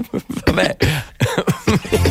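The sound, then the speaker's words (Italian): A person coughs because of an allergy, giving a quick run of many short, harsh bursts packed closely together. “Devo tossire, posso?”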